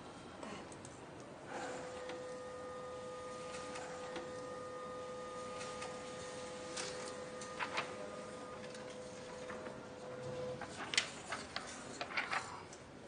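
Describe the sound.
An office printer runs with a faint, steady mechanical hum and soft ticking. Louder clattering bursts come near the end, and no one talks.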